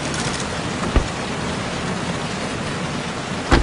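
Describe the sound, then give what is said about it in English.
Steady rain beats on a rental car with its windshield wipers running, a dense even hiss broken by two brief, soft thuds, one early and one at the end. “They stare off, their windshield wipers battling the rain.”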